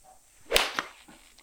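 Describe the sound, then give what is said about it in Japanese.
A one-piece cast golf club, made of a high-rebound material, strikes a ball with a sharp whip-like crack about half a second in, followed by a softer second click, against quiet background. “ちょっと打ってみたいと思います。”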